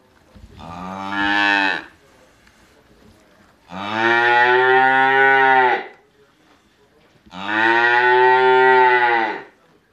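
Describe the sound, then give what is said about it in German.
Calves in a barn, newly separated from their mothers, call out with three long, loud, low moos. The moos are evenly spaced and separated by quiet pauses, with no talking. “sie werden noch eine Zeit lang nach ihren Müttern rufen. Drei Monate lang haben die Kälber mit ihnen zusammengelebt.”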